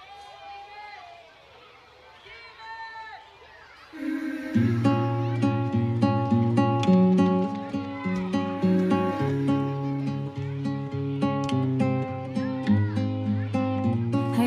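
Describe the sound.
A song plays on the radio: a soft, sparse opening gives way to a full, loud band arrangement with a steady rhythmic pulse and sustained melodic lines.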